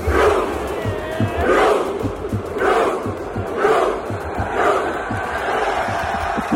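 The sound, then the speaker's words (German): A football stadium crowd doing the Viking rowing chant for Norway after a win or goal, a loud massed roar swelling in regular pulses about once a second, thousands of voices shouting in unison. “Wenn Norwegen gewinnt oder ein Tor schießt, rudert nämlich das ganze Stadion. Also die setzen sich dahin, strecken die Arme nach vorne und rudern wie Wikinger. Hör mal.”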